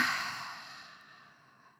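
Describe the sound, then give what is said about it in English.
A loud breath out through the mouth during a short meditation exercise: one airy, breathy exhale that starts strong and fades steadily over under two seconds. “And then I want you to take another big breath in through your nose. And a really loud breath out through your mouth.”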